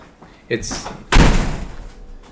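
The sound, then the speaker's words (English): Doors being slammed: a dull thump, then about half a second later a louder, heavier slam with a rumbling tail that fades out gradually. “over there just slamming doors”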